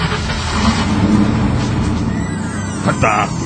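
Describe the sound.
A carbureted V8 engine with a two-barrel carburetor revs with a rough, dense rumble that holds steady and surges briefly near the end, with voices present.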